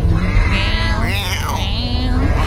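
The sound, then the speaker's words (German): A seagull gives a drawn-out, wavering, cat-like wail that is nasal and harmonic-rich. A single call bends up and down in pitch over steady background noise. “Haltet euch fest. Das ist eine Möwe.”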